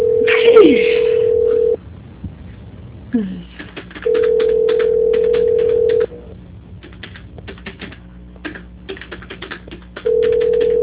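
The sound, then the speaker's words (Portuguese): Telephone call transfer tones sound as a steady mid-pitched beep held in long stretches, separated by pauses filled with faint line noise and brief voice sounds. “Por favor, que eu vou transferir a sua ligação. Transferência.”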